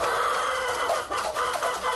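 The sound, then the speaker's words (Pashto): Chickens cluck and chatter nonstop, a dense, overlapping flock of about a hundred birds kept in a small raw mud-brick coop in a courtyard corner of an old mud house in a village in Khost. “دغه چرګان د یاد شوي کور د انګړه په یوه کونج کې له خامو خښتو څخه په یوه کوچنۍ جوړه شوې خونه کې ساتل کیږي.”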